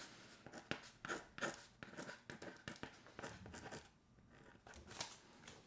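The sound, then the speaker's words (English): Pen scratching across paper while handwriting: many quick, dry, scratchy strokes in an irregular rhythm, moderately faint, with short pauses between bursts of writing. “I'm going to write it out.”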